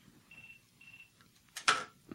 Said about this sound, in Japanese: 電話かかってきちゃった。すみません。